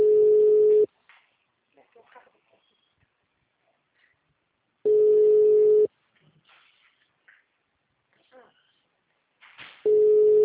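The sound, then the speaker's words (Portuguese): Ringback tone of a phone call that goes unanswered: three steady single-pitch tones, each about a second long and spaced roughly four seconds apart, with faint voices in the gaps. “Alô, boa tarde. O número não responde.”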